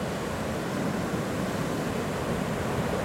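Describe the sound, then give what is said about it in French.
Sea waves break with full force in a steady, dense roar of surf and rushing water that holds at an even loudness throughout, with no voices. “Oh là, regarde, là elle se donne à fond la mer là. hein. Le bruit qu'elle fait là, elle est en pleine. euh, comment dirais-je, en pleine force quoi.”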